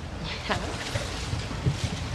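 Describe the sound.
A boat out on the water in a film scene, heading close to shore: wind buffeting and washing waves form a continuous rushing, splashing bed of noise at moderate level.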